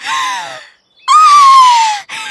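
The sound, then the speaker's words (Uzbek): A voice imitates a mouse screaming in a folk tale, giving shrill, loud cries; the longest sweeps slowly downward in pitch before another cry begins. “Bu yerdagi bug'doylarni ko'rib, bechora sichqon qichqirib yuboribdi.”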